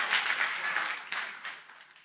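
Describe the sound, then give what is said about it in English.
Audience applause at a church gathering, honouring the committee members: fairly faint clapping from many hands that thins out and fades away. “But none of the committee members here are like that. I know that. Clap for them.”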